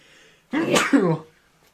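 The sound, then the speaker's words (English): A single sneeze, starting with a short intake and ending in a sharp, loud two-part burst, with quiet before and after. “I think it's one of the first times I've sneezed on the show.”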